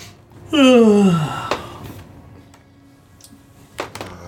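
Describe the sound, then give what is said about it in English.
A loud voiced yawn on a boat, a single drawn-out vocal sound with falling pitch lasting under a second, followed by a few faint knocks and clicks. “And then I'm going to yawn.”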